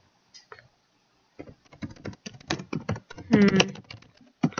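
Typing on a computer keyboard: many quick, light key clicks in uneven bursts, with a short vocal sound partway through.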